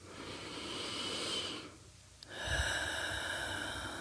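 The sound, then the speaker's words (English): Deep, slow breathing through the nose and mouth: two long, steady airy breaths separated by a brief lull, with a faint click between them. “Let's take a couple of deep breaths. In through the nose and out through the mouth.”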